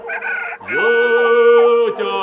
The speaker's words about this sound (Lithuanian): vištos karkė palangėm, palangėm.